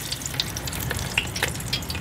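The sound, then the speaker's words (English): Locusts deep frying in oil at a locust farm give a steady, fairly quiet sizzling hiss dotted with many small crackles and pops, with no talking. “this is one of my favourite ways to have them. It's just deep fried with just a tiny wee pinch of salt.”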